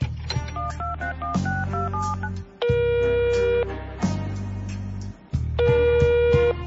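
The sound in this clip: A telephone number being dialed with a quick run of touch-tone beeps, followed by a few bursts of longer, steady electronic tones.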